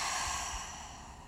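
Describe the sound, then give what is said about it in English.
Deep breath drawn during a guided mindfulness exercise: one steady, airy rush of breath that holds for over a second and tapers off gently at the end, heard alone without talk. “Go ahead and take a nice deep breath in. Deep breath out.”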